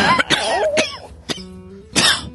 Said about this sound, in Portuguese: Pode ser que de vez em quando eu dê uma tosse de cachorro aí no microfone.